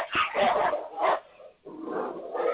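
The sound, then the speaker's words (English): Two wolves, a big one and a little one, cry out in harsh, raspy bursts with yelping and whimpering tones, loud and rising and falling in a few uneven waves. “Yeah, a big wolf and a little wolf in there somewhere. Whoa, that's really harsh.”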